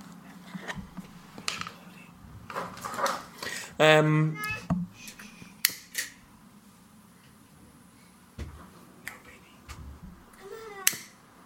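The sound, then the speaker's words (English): A young child babbles in the background, with a few brief high-pitched voiced bursts under adult talk and scattered light clicks. “I don't know if you can hear Child of the Podcast in the background there.”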